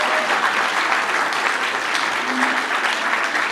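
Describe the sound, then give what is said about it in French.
Audience applause for secondary-school pupils who took part in a web radio project: brisk, continuous clapping holds at an even, full level from start to finish. “Et on peut évidemment applaudir tous les collégiens qui ont participé”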